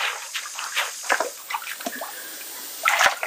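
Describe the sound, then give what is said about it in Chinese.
Local spring water splashes and sloshes as tree bark is soaked in it for handmade paper. Scattered, fairly faint splashes and drips come at irregular moments, with a busier burst of splashing near the end. “我们利用这个当地的这个山泉水来浸泡呢，原因主要是去除这个树皮当中的一些木质素以及果胶和这个淀粉。”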